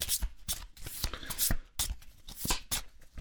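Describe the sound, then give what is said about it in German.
Playing cards shuffled by hand in a quick series of dry, crisp riffling bursts and soft slaps, fairly faint and uneven in rhythm. “So, ich habe die Karten gemischt.”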